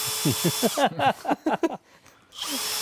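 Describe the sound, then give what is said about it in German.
Cordless drill drilling holes in a kitchen: a rapid series of short, whining motor bursts, then a brief quiet gap before a steady high whir resumes. “ab sofort hat der Akkuschrauber in der Küche einen festen Platz”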